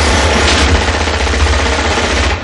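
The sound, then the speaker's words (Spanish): Loud, rapid machine-gun fire from the 1988 action film Die Hard as a gunman shoots at cover in an office with glass panels. One continuous rattling burst runs almost the whole time and fades at the very end. “John lanza ráfagas contra el parapeto de Carl.”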